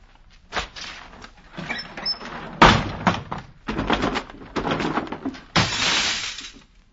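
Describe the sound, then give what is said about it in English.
Heavy drapes being ripped down in a dramatized scene: a series of ragged, noisy tearing and rustling bursts, some short and sharp, others drawn out, rising and falling in loudness over several seconds. “I shall rip down the drape!”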